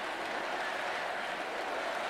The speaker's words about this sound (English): They're chanting USA.